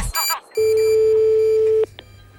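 Telephone dialing tones: a quick cluster of short beeps, then a single steady low tone that holds for over a second before cutting off abruptly.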